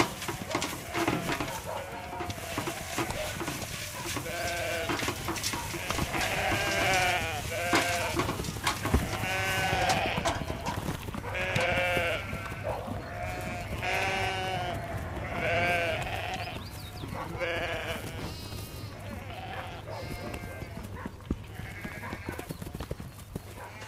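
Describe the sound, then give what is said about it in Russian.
Sheep bleat again and again while grain is poured out for them. Many wavering, overlapping calls rise and fall throughout, over a bed of shuffling hoof clatter. “насыпает зерно для овец.”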